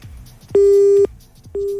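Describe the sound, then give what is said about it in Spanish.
Telephone busy tone after a caller hangs up: two loud, steady, mid-pitched beeps of equal pitch separated by a short gap, the second cut off at the end. “Oh, le sacó el teléfono a la mamá y cortó.”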